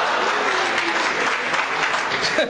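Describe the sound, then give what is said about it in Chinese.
Audience applause fills the whole recording as a dense, steady roar of many hands clapping at a live comedy stage act. It stays loud and even throughout, then cuts off abruptly at the end. “谢谢大家雷鸣般的掌声，谢谢。”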